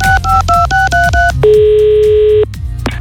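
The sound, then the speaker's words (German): Telephone dialing and a call ringing: a quick run of short keypad tones, then a single long steady ringing tone, with another tone starting at the very end. “Und den werden wir jetzt mal anrufen und möglicherweise habe ich da eine kleine Überraschung für ihn.”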